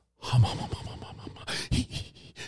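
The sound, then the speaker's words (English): A voice imitates an actor's vocal warm-up, producing a run of breathy, panting gasps like a dog breathing, with several uneven bursts of rasping air. “yeah, basically that's what it was. And that sounded more like a dog breathing.”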